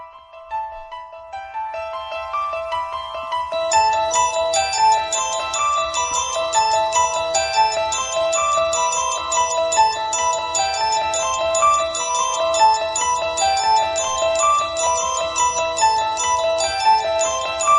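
Instrumental 1973 horror-film theme built on a repeating, tinkling bell-like keyboard figure. It opens sparse and thin, then fills out with a low bass layer a few seconds in and carries on at a steady, fairly loud level.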